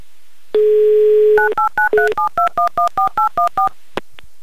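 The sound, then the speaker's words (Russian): A telephone number is dialed on a keypad: a steady single tone is followed by a quick, even run of many short two-pitch beeps, then a faint click near the end. “А ты пока звони. Я пока звоню.”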